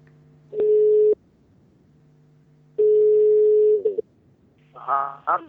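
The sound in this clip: A telephone line tone sounds as a call is placed to an expert: two long, steady mid-pitched tones, each about a second, over a low hum, followed by brief warbling beeps at the end.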